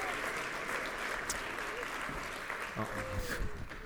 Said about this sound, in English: let's go ahead and give another round of applause here for Brittany